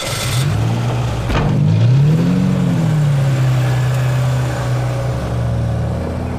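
A car drives off, its engine revving as the pitch climbs, then settling into a steady, loud drone that continues to the end.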